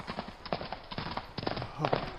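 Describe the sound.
Horse hooves clip-clopping as a horse is ridden into a charge; a quick, steady run of many sharp hoof knocks, fairly loud and continuous throughout.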